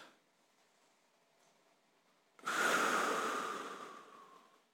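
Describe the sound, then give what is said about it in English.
A roomful of people inhale deeply together during a guided breathing exercise. After a quiet start comes one long, loud, airy rush that begins abruptly and slowly fades over about two seconds. “just take a deep breath and hold it in for like 3 seconds.”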